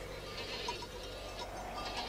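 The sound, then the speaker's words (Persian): Faint bleating from a flock of sheep or goats arriving with their herder, a few short calls over a steady, windy background hiss. “پیتر با گله اومد.”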